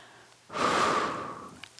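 A single deep inhalation during a movement and breathing practice, a breathy rush lasting about a second that swells quickly and then slowly fades, followed by a couple of faint clicks.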